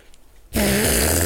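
An imitated fart made by squeezing air from the armpit or elbow pit bursts in suddenly after a quiet moment: a loud, raspy, sputtering buzz that holds steady to the end.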